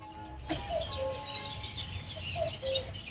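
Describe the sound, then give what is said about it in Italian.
Small birds singing in the morning: a few short, clear chirps rise above a steady, noisy background, with quiet gaps between the calls. “Questo è il suono del risveglio, gli uccellini che cantano, la giornata che inizia.”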